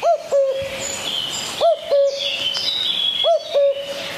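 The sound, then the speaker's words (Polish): A cuckoo in a forest gives three clear two-note calls at a steady, unhurried spacing, each mid-pitched and hollow. Faint, higher birdsong chirps continuously in the background. “Jaki to ptak, panowie? Kukułka, ale to nie ta pora trochę.”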